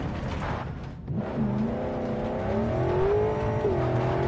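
A car engine drones steadily while being driven in a first-person view in a video game, its pitch climbing about midway before dipping again, loud and continuous with no voices.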